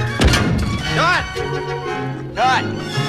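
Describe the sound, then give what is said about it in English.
A metal canteen falls from around a bulldog's neck on a mock battlefield, giving one dull thunk near the start, followed later by two wavering tonal calls over steady background noise. “God damn it, this canteen fell off. Props! The goddamn thing's canteen fell off.”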